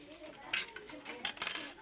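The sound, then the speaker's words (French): A knife cuts a small piece of potato for a Fehling's solution food test, giving a few faint, short scraping clicks. “On va essayer de couper un petit morceau proprement de pomme de terre.”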